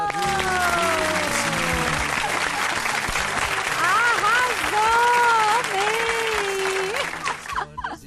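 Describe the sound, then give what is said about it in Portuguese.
An audience claps for a performer right after a song, a full, steady round of applause with voices calling out over it, thinning out and fading near the end. “Palmas pra ele! Arrasou!”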